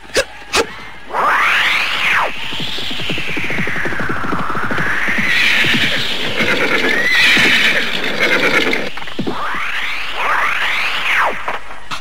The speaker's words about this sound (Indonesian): Penunggang kuda melarikan kudanya ke arah tempat kita.